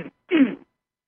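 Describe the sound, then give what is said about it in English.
A person clears their throat once: a brief, rough, voiced burst lasting under half a second, followed by silence. “I have to clear my throat there.”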